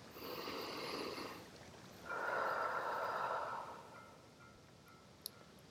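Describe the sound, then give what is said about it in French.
Two slow, deep breaths taken during a guided relaxation while returning to wakefulness. Each is a long, soft, airy rush, the second slightly fuller than the first, faint and alone, followed by quiet. “Pour cela, je prends deux ou trois grandes respirations.”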